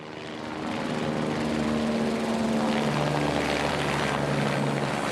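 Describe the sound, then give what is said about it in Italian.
Engine drone of helicopters and Canadair water-bomber aircraft scooping water from Lake Maggiore during wildfires in Piedmont, a loud, steady, buzzing roar with sustained tonal hums that swells during the first second and then holds constant. “Da una settimana ormai gli abitanti dei paesi piemontesi tra Lago Maggiore e Bassa Valle Ossola hanno fatto l'abitudine a questo rumore. Sono i motori degli elicotteri e dei Canadair che prelevano acqua dal lago”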